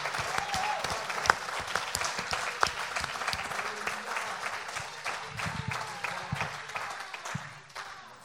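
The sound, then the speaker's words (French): A church audience applauding and acclaiming during a service, dense, continuous clapping from many hands that holds steady and thins slightly toward the end. “une vraie acclamation pour le Seigneur. Est-ce que vous pouvez faire ça maintenant? Pour acclamer pour le Seigneur.”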